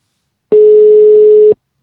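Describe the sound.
Telephone tone heard while calling a mobile phone: a single loud, steady mid-pitched beep that lasts about one second, starting and stopping cleanly against silence.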